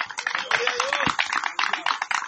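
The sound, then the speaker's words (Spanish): Applause from an audience during a Spanish-language church service: a dense, continuous wash of many hands clapping, with a voice sustaining a tone over the clapping. “¿Cuántos damos gloria a Dios en esta hermosa tarde? Demos un aplauso para que usted no se duerma.”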